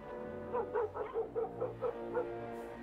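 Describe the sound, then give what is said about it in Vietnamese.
Dogs barking at night produce a quick series of short, sharp, mid-pitched barks and yips over a steady droning background tone, fairly faint overall. “Tôi thầm nghĩ, có khi mấy con chó này bị điên, tự dưng lại loạn lên giữa đêm thanh vắng như thế này”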